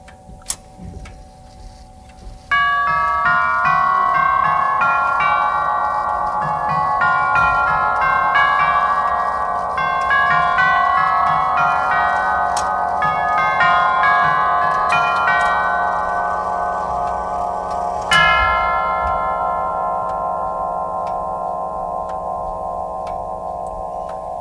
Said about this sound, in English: Now I will give you another sound that will be the St. Michael on the same movement, but now we change the movement. So you move a little lever.